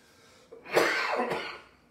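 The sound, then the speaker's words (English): A rough throat-clearing cough from someone reading scripture aloud: one short, breathy burst that rises and tails off, heard alone with no talk. “Excuse me, let me get that out of my throat.”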